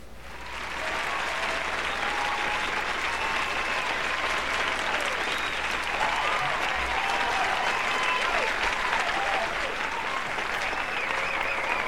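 A live audience applauds in a steady, dense wash of clapping that holds at an even level for about eleven seconds without a break.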